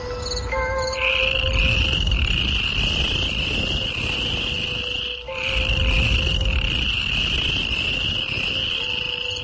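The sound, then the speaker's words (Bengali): Frogs croaking and insects chirping at dusk: a steady high insect trill over a continuous chorus of low croaks, with only a brief dip midway. “চারদিকে ব্যাং, পোকামাকড়ের তুলকালাম গান জুড়ে দিয়েছে”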